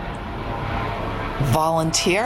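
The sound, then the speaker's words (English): Broad droning roar of a low-flying airplane passing overhead, holding steady throughout, with a person starting to talk over it in the last second. “Low-flying plane out there.”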